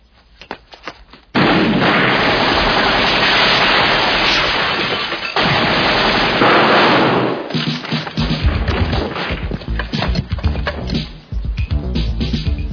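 Sustained machine gun fire in a police shootout, a loud, dense roar of rapid shots that later breaks into choppier bursts mixed with sharper pops and cracks.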